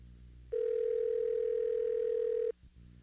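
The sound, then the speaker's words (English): Telephone dial tone heard after a dropped call: one steady, unwavering mid-pitched tone that holds for about two seconds, then cuts off abruptly over a faint low background hum. “I hit the wrong button. I lost Patricia.”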